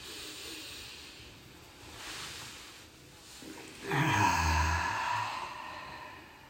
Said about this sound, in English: Okay, let's take a nice deep breath in together. One last one.